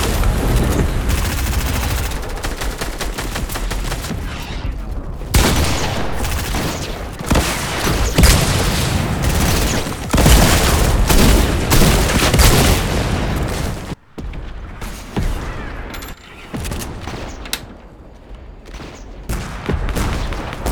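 Rapid automatic gunfire from a drum gun in a shooter video game. Long bursts of fire mix with booms and only brief pauses, sounding almost nonstop for about twenty seconds.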